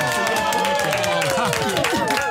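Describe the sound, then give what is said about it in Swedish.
A small group applauds at a birthday celebration. Brief, light clapping blends with overlapping voices and cheerful chatter. “En liten applåd i alla fall.”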